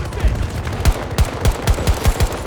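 Automatic gunfire from a weapon in a video game: rapid, sharp bursts of shots, loud and fairly evenly spaced, with each burst standing out in a quick rhythmic sequence.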